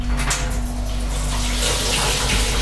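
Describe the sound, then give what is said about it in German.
Tap water runs steadily into a sink basin as it is rinsed out, a continuous splashing rush lasting the whole stretch without a break. “Spüle ich das mal kurz aus.”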